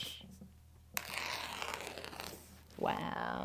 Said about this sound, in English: Usually, I would be very alarmed of someone tearing a page out of a book, but this is exactly what it is supposed to do.